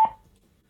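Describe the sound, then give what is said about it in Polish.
A single short electronic beep from the TWS button of a bluetooth speaker, a clear mid-pitched tone that sounds once and decays quickly into silence. “I teraz następnym przyciskiem jest przycisk TWS i TWS wydaje taki dźwięk, jak go się naciśnie.”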